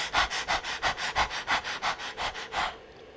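Person imitating a dog panting with the tongue out during a vocal warm-up exercise: a rapid, even series of breathy huffs that stops abruptly near the end.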